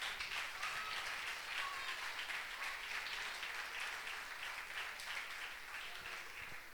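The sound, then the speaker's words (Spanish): An audience applauding during a church sermon, with even, continuous clapping that holds at a fairly soft level for the whole clip and has no talk over it. “Dale un aplauso nomás, no se enoje conmigo.”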